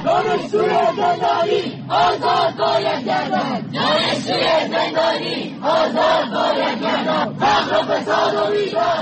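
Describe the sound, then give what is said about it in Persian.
Students chant slogans at a nationwide anti-government protest in Iran, a loud massed crowd of voices rising and falling in rhythmic bursts with only brief dips, sustained through the whole stretch. “این صدای دانشجویانی است که در اعتراضات سراسری مردم علیه حکومت جمهوری اسلامی در صفحه اول معترضان قرار گرفتند.”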